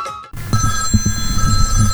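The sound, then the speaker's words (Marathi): Telephone ringing with an incoming call, a steady high electronic ringtone that carries on throughout, layered over a low, rhythmic pulsing background after a brief dip near the start. “अहो अण्णांचा phone दिसतोय, अण्णांनी आज कशाला phone केला असेल बरं?”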